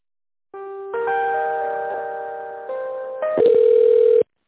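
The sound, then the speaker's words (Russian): Electronic telephone tone while a call is transferred: a steady, sustained synthetic tone that shifts pitch a few times, getting slightly louder near the end before cutting off abruptly. “Сейчас, секунду, соединю вас.”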